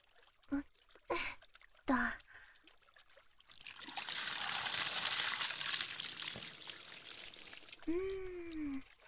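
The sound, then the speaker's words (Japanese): Water pours to rinse something clean, a steady rushing flow of about three seconds. A few short breathy vocal sounds come before it and a brief voiced sound follows. “よし、これで全部きれいになりましたね。それでは流しちゃいますね。”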